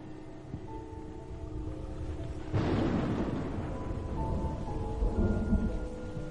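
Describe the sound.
Steady rain hisses throughout while a low thunder rumble breaks in partway and rolls on beneath the downpour without a voice.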